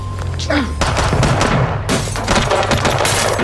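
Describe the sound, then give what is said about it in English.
Dense gunfire erupts at a gas station during a police confrontation with a suspect in a late model Chevy. Many sharp, rapid bursts crowd together, loud and continuous, with raised voices mixed underneath. “Who's shooting?”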